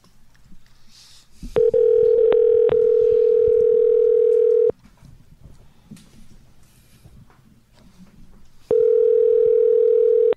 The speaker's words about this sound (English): All right, dialing him in right now.